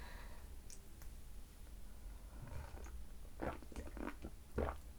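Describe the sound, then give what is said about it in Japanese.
Hot black tea being sipped from a cup, heard as a few soft, faint slurping and clicking sounds over a quiet background, with no voices. “もうちょっと紅茶を飲むよ。”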